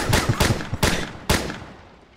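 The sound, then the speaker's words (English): Gunfire from a gun in a video game: several sharp, loud shots in an uneven, rapid sequence. Each has a lingering tail, and the last rings out and slowly fades. “I take the gun from Cindy and I unload the rest of the bullets into her.”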